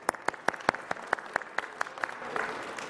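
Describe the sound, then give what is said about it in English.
Clapping at a Wednesday evening chapel service comes as a quick run of about ten evenly spaced, crisp claps. It then blurs into a softer, continuous patter. “tonight is the first Wednesday of our winter term, so give yourself a hand. You made it.”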